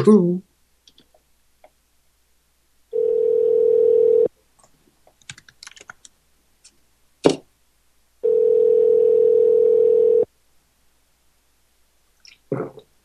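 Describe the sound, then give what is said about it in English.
Phone call being placed: scattered sharp clicks around two long, steady, mid-pitched electronic tones separated by a quiet pause, with a few more clicks after each tone. “We're just going to dial this number and who knows what's going to happen.”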